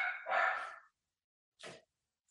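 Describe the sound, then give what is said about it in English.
A puppy barks: a quiet, high yapping burst, then a pause before one short final yip. “And sorry, my puppy.”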